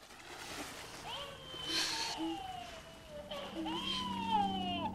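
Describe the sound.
Splash of a man diving into water from a boat, a brief watery burst near the middle, quiet overall, with a voice talking over it.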